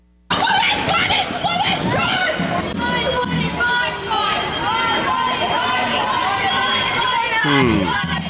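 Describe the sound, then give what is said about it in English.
Screaming and shouting from a crowd of people, loud and unbroken throughout, a dense mass of overlapping voices with a brief sharper burst near the end. “You heard some screaming there.”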